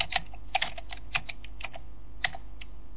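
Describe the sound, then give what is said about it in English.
Typing a command into a command prompt on a computer keyboard: many quick, light keystroke clicks in uneven bursts, with a few louder taps, heard alone without speech. “So, like, I'm in a command prompt. I type in...”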